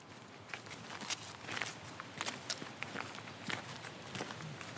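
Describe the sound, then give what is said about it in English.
Footsteps walk down a garden path, a faint, steady stream of crunchy, irregular steps with no voices. “So now we are walking down towards the Gothic Temple”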